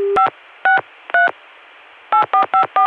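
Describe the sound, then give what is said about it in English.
Touch-tone dialing on a phone line whose exchange converts the tones to dial pulse. Seven short dual-tone beeps sound: three spaced well apart, then four in quick succession. “But the access through 454 converts touch tone to dial pulse, and that takes time.”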